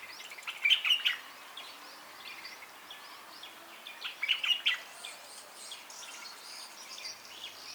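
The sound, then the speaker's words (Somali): Birds of an unknown species calling nearby: two short bursts of bright, high chirps separated by a few seconds, with fainter scattered calls between them over a soft background hiss and no voices. “waxaa meelaan iga dheerayn ka dhawaaqaya shimbiro aanan garanayn magacooda wuu xasuusinayaa inaanan keliga ahayn”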